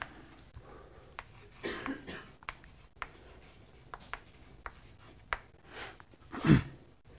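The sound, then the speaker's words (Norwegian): Drawing on paper as a bowl on a shelf and a coin are sketched: faint, scratchy strokes come in many short bursts separated by quiet gaps, with one louder, longer stroke near the end. “Så vi tegner skåla her da, som står oppe på hylla, og så kommer da mynten her.”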